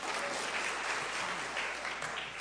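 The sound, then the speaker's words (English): A church audience claps together in steady, dense applause that holds at an even loudness from start to finish, with no pauses or breaks. “give the Lord a clap offering”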